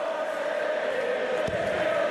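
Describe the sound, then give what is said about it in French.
Crowd noise from a darts match in Blackpool: a steady, loud roar of many voices that holds evenly from start to finish without clear breaks. “Et le public de Blackpool qui donne un peu de la voix.”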